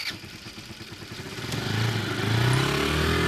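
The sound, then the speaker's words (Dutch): A scooter engine starts and drives off at night, its low mechanical drone swelling steadily louder with a clattering edge as it revs up over a few seconds, with no talk. “Dus ik ga lekker naar de scooter en richting de veiligheid van mijn eigen huis.”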